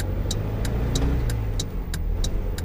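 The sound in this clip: A car engine accelerating while overtaking on the road gives a steady, loud, low mechanical drone that continues throughout, with no voices.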